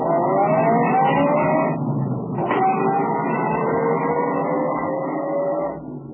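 A car drives off with a loud, continuous engine drone. Its pitch climbs as it accelerates, dips briefly, then rises again, and the sound tails off at the very end.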